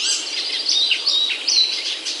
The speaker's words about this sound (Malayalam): പക്ഷികൾ മഹത്തായ സൃഷ്ടികളാണ്. വശ്യ സൗന്ദര്യം നിറഞ്ഞവയാണ് പക്ഷികൾ ഏറെയും.